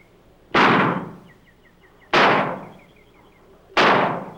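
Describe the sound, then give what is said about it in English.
Three rifle shots fired from a grove, each a loud, sharp crack with a quickly fading tail, evenly spaced about one and a half seconds apart, with quiet between them. “His shots come from up there in the grove.”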